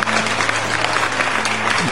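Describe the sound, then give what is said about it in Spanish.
Canned applause sound effect played during a radio show: a short, dense burst of steady clapping with no clear pauses. “Aprendí a poner los aplausos. Aplauso, ¡Aplausos”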